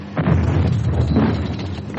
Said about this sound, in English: Holy shit, that was close. Flak boxes laid across the run.